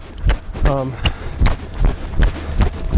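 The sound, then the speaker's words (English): Jogging footsteps thud in a steady, even rhythm of soft low impacts, with a voice heard briefly among them. “I'm just jogging right now, although I have to admit I'm a little winded.”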